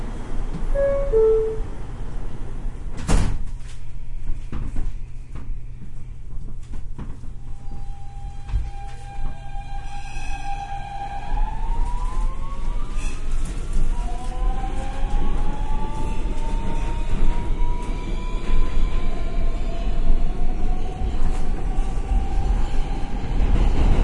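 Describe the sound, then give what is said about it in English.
A Brooklyn-bound New York subway N express train departs with a steady heavy rumble. After about ten seconds an electric motor whine rises in pitch and keeps climbing, and further tonal whines join in as the train gathers speed. “This is a Brooklyn-bound N Express train. The next stop is 49th Street. Stand clear of the closing doors,”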